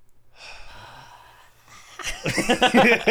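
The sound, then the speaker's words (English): A deep breath drawn in by someone whose asthma is acting up: a soft, airy inhale that gives way to louder, breathier vocal sounds near the end. “I'm going to take a big old breath because my asthma's feeling it. So I just want you guys to join me. Deep breath in.”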